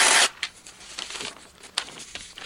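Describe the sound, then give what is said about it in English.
Paper being ripped up into pieces: one loud, rough tearing burst at the start, then a few shorter, quieter rips and crinkles spread unevenly after it. “I'm not even giving you the pieces. I'm going to rip all these up.”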